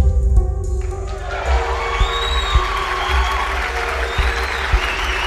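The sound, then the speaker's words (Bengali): A theatre audience applauds at the end of a play, the dense, unbroken clapping loud and steady throughout, with a few sharper accents standing out from the wash of hands. “নাটক শেষ হতে হল ভর্তি হাততালির মাঝে”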